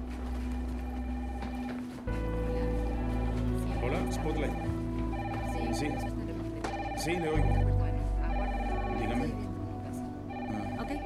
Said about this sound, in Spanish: Teléfonos no paran de sonar.